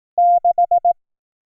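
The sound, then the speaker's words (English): Morse code for the digit six: one long beep followed by four short ones, all at the same steady mid pitch, clean and alone in silence. “And the code is 6. 6 is”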